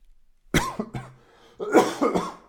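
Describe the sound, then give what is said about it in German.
A few harsh coughs from a person who has swallowed wrong while drinking: two short sharp bursts, then a longer, rougher cluster of coughing, fairly loud against a quiet background. “Entschuldigung, habe mich verschluckt.”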